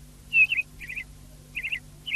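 A small sparrow chirps: four short, bright, trilled chirps with brief gaps between them, standing alone over a faint low hum.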